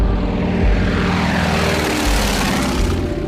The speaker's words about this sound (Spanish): Aquella joven menuda logra mantener el avión a más de 1000 metros de altura durante 100 gélidos e interminables minutos.